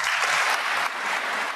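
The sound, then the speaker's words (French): Audience applause after a commemorative speech by the German head of state in Dresden: dense, steady clapping that holds loud and unbroken throughout, dipping only slightly partway. “Le président allemand Steinmeier, très applaudi à Dresde cet après-midi”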